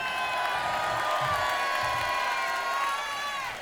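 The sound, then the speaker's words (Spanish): A concert crowd cheers and whoops loudly, with shrill whistles riding over a steady, dense roar that lasts the whole time without dropping off. “Y por favor, quiero que deis un aplauso muy grande a JJ, nuestro técnico de monitores.”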